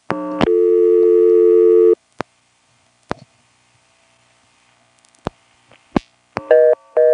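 A telephone line flashed on the switchhook right after dialing 113 gives a steady tone that cuts off, then a few isolated clicks spread apart, and finally a fast on-off reorder tone in short bursts.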